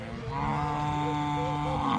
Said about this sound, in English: Kinampet Sampara is taking stock of his remaining herd of donkeys, making sure none have been taken.